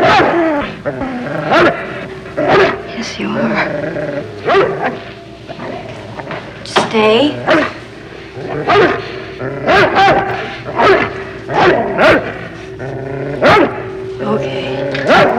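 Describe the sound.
A dog barking in many short, sharp bursts mixed with yips and whining whimpers, loud and irregular in rhythm throughout.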